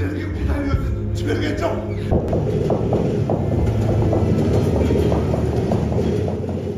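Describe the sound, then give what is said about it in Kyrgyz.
Trains passing continuously, a steady rumbling roar with rhythmic clickety-clack of wheels over rail joints, loud throughout with a brief shift in texture partway through; no voices over it. “Батыштан чыгышка, чыгыштан батышка тынбай каттаган поезддердин үнү коштоп”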